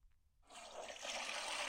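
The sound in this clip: A toilet flushing after being repaired: near silence, then a sudden rush of water that swells into a loud, steady hissing gush and keeps flowing to the end.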